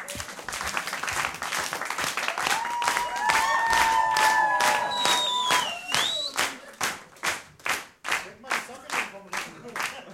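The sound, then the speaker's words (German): Audience clapping in rhythm, at first blended with crowd noise and voices, then settling into many loud, evenly spaced claps in a steady beat. “Können wir mal im Takt klatschen, wenn er so hochzieht?”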